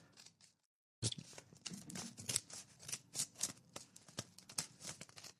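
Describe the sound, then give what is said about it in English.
Scissors snip repeatedly, giving many crisp, quick cuts in a steady run after a short silent pause, soft and with no talk over them. “I hope I'm not cutting anything important here.”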